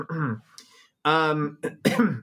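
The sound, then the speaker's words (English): A person repeatedly clears their throat in a few short voiced, gravelly bursts with brief gaps between them, trailing off into indistinct mumbling. “Repeatedly clear throat and trail off into indistinct mumbling.”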